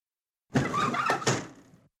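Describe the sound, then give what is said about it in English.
A window is slid wider open in one scraping slide lasting just over a second, with a sharper knock partway through, moderately loud with no voices. “Carefully, Robert opened the window wider.”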